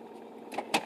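Car power windows operated on an icy morning, heard as two short motor bursts about a quarter second apart, the second louder and harsher, over a low steady hum.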